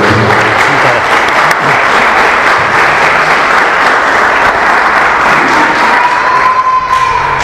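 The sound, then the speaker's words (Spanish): An audience at a conference lecture applauds loudly, a dense, steady wash of clapping that continues unbroken for the whole stretch without fading. “Así que damos un fuerte aplauso”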